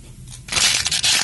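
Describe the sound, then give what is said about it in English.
Disposable plastic trash, likely a water bottle, is crushed: after a quiet start comes a loud, sudden crackling crunch of crumpling plastic that continues in a few rough bursts. “What's that sound, you ask? It's the sound of one-time-use trash.”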